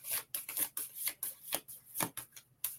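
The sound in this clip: A card is pulled from a deck, heard as many short, crisp rustling and sliding swishes in an uneven rhythm, with no talking.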